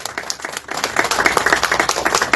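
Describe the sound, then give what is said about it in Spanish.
An audience at an Asociación Villa Sureña community event in Islay applauds the district mayor, with many quick, overlapping claps that build into a lively, sustained patter. “Muchas palmas para él, por favor.”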